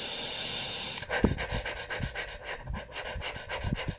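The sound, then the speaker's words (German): A person demonstrates a panting breathing technique with short, quick, breathy puffs in a steady rhythm. Many pants follow about a second of steady hiss. “Kurz einatmen. Das wäre das Hecheln”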